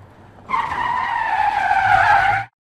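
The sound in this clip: A car's tires skid in a long, harsh screech that holds steady for about two seconds at strong volume and then cuts off abruptly, with no separate impact heard.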